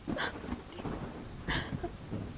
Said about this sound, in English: Here in your cave, while it rains outside